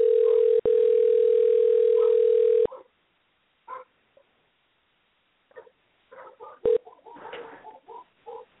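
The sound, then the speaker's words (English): A steady telephone dial tone hums for about two and a half seconds while a call to a friend is being placed, broken once by a brief gap. After a quiet stretch come scattered soft sounds and another short tone blip. “Let's try this. Let's dial a friend.”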